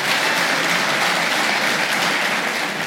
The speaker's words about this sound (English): Give it up for Babs Keating, Richie Bennett, and Andrew O'Shaughnessy.